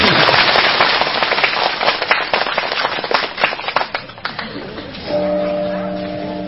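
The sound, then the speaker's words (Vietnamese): Applause from an audience at a Buddhist dharma talk: dense, loud, crackling clapping that thins out after about four seconds, followed by a sustained steady tone. “Cảm ơn quý vị nhiều. Vỗ tay cái nữa đi.”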